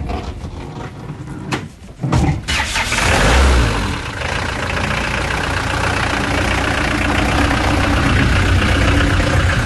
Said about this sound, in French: C'est une camionnette de gendarmerie qui marque l'époque et le temps. Quand j'étais jeune, je montais derrière. Maintenant, je conduis.